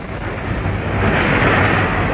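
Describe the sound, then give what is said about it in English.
Tempestuous storm winds at sea: a dense, muffled roar of wind and surging water that grows heavier partway through and stays loud to the end. “But tempestuous winds blew them off course, and soon they found themselves in dire straits.”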